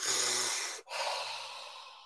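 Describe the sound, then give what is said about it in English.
Deep, forceful breathing, heavy and airy, in two long drawn breaths separated by a brief pause, the second gradually fading. “Maybe some of you put a bag over your head and breathe deeply for three quick breaths”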